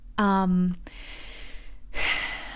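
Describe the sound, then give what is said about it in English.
A deep breath taken by a speaker: a short voiced sound, then a long, breathy inhale and a second breathy rush of air, fairly loud and with no words over it. “I need to take a breath.”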